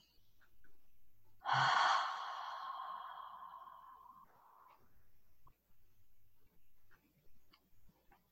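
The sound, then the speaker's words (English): A slow breath in a guided meditation, in through the nose and out through the mouth: one audible, slightly voiced exhale swells suddenly, then fades over about three seconds. Faint, soft breathing noises follow in the quiet. “Breathe through your nose, out through your mouth.”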